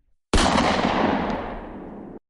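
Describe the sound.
A gunshot sound effect, a loud bang from behind a rolling shutter door: one sharp, loud blast whose broad roar holds for about two seconds, slowly fading before it cuts off abruptly.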